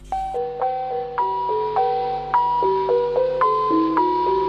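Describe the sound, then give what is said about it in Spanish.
The interval signal of NHK World Radio Japan, a slow melody of clear, bell-like chiming tones, each note ringing on as the next sounds, played alone. “¿Querés conocer? Pero claro, la señal de intervalo. Y bueno, suena así, Juan.”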